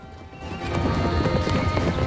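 Horses running, their hooves kicking up clouds of dust on a sunny ridge: a dense, steady drumming of many hoofbeats that swells louder after a quieter start, with a whinny among them.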